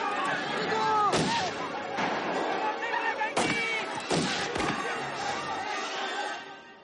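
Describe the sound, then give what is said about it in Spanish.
Gunfire as riders flee on stolen horses in a film scene: several sharp, loud shots crack out at irregular intervals over a dense, continuous background. “Roban caballos y huyen. Mientras, los asaltantes les disparan.”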